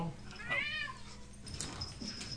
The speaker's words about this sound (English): Oh, the cats are killing each other. Hellcats are at it again.